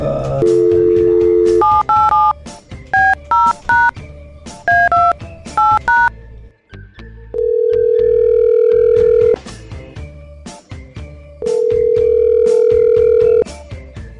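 A telephone call being dialed: a steady dial tone, then a rapid run of touch-tone keypad beeps at varied pitches, followed by two long, even ringing tones separated by a silent gap.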